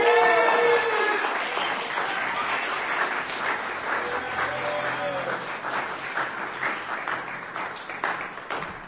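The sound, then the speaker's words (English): Sustained audience applause for a performer at a poetry reading: dense, steady clapping fills the whole stretch at an even loudness, easing only slightly toward the end. “Give her a hand.”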